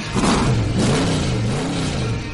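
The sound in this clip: A race car engine revs hard, Lightning McQueen from the film Cars, giving a loud, sustained roar for about two seconds whose pitch wavers up and down, with no voices over it.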